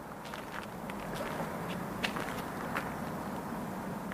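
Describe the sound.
Footsteps on a forest path above a village: soft, irregular steps crunching over a steady, low background hiss.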